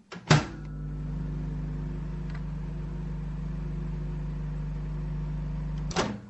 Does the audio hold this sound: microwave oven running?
yes